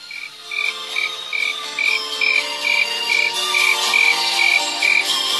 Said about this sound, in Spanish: escucha ese grillo